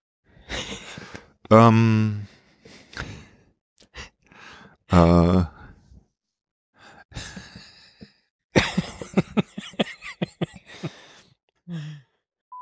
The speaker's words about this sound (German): Dann gähne ich aber jetzt auch nochmal in voller Länge.